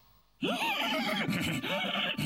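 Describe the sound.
A horse neighs while someone pulls on its tail: a loud, shrill whinny with a wavering pitch that runs for nearly two seconds, heard alone.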